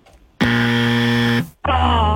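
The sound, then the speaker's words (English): Game show buzzer sounding after a wrong answer: a loud, harsh, steady electronic buzz lasting about a second. After a brief gap a second similar buzz starts and runs to the end. “Oh, the buzzer's back.”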